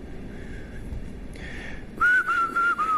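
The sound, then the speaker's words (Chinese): A person whistles during a talent-show audition, producing four clear, steady mid-pitched notes in quick succession after fainter tones earlier over a low background hum. “口哨不算啊”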